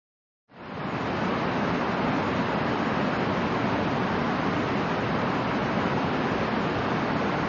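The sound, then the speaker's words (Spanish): The rushing water of the Tumpak Sewu waterfall in Java, a dense, even roar that starts abruptly after half a second of silence and continues unbroken at a steady level. “Seguimos el sonido del agua hasta encontrar otra maravilla natural javanesa.”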